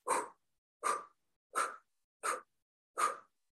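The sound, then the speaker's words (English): Five quick, forceful breaths pushed out through the mouth in a breathing exercise, each a short airy puff with the belly snapped in. The puffs are evenly spaced, crisp and alone against silence. “It's just a quick exhale through the mouth, snapping your belly in.”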